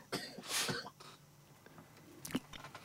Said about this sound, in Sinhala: මයිකේ පොඩකව බලවත් කැස්සක් තියෙනවා.